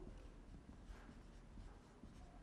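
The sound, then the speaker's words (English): Soft scratching of handwriting on paper, faint irregular pen strokes against a quiet background. “Let me just write it this way.”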